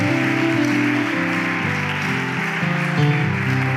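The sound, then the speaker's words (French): A standing church audience applauds and cheers for the glory of God. The dense, steady clapping runs the whole time over a stepping keyboard melody. “Lèvons-nous, acclamons pour la gloire de Dieu.”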